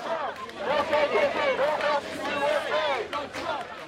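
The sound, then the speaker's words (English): Demonstrators at competing rallies in downtown Boston chant and shout together, a loud, rhythmic mass of voices with continuous crowd babble underneath. “this is the sound of competing rallies in downtown Boston over the weekend.”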